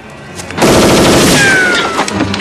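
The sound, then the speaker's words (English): Gunfire as a gunman shoots at two men moving through woods: a loud, sustained volley of rapid shots erupts after a quiet lead-in and keeps hammering on to the end. “A gunman fires at them.”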